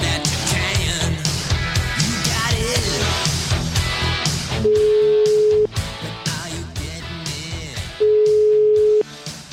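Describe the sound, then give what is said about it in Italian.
Italian telephone ringback tone while a call is placed: two long, steady mid-pitched beeps, each about a second, sounding over loud continuous music. “Proviamo a chiamare Gentilini, che dici? No, ma forse risponderà. Sentiamo.”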